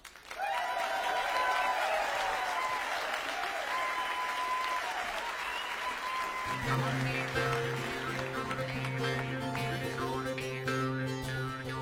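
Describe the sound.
Audience applause welcoming a Welsh-Galician band at Hay Festival, loud and steady clapping that fills the whole stretch, with the band's music starting up underneath partway through.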